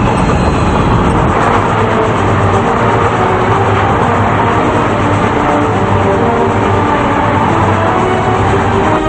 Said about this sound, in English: A man in a mask presses two wires together and the train tracks move, sending the first train veering off to the left as the second train continues moving forward.